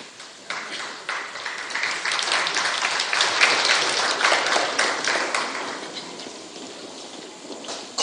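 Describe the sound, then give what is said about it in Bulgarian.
Audience applause at an on-stage ceremony as honourees are called up, a dense rattle of many hands that starts after a soft half-second, holds steady and fairly loud, then thins slightly toward the end. “Моля вашите аплодисменти за тях.”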